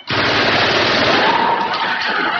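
A gun fires one loud, continuous burst of rapid automatic rounds lasting over two seconds while hot empty cartridges are ejected, with no voices.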